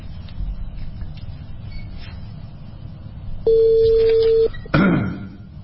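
A telephone call is dialed: a steady electronic line tone holds for about a second, stops, then a short harsh burst follows, with faint background noise throughout.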